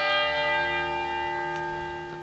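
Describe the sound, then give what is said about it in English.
Church bells ring with a rich, sustained tone full of overtones that hangs and slowly fades, with no talking. “Those bells remind me of the bells that called my ancestors 6 a.m. to wake up and to begin prayer, and at noon to stop and to eat.”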